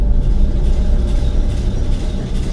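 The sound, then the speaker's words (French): Ship engines at full power in an ocean liner's engine room make a loud, dense, low roar that stays steady and continuous, with no voices. “Dans la salle des machines, les moteurs fonctionnent à plein régime, ça rugit comme un animal sauvage.”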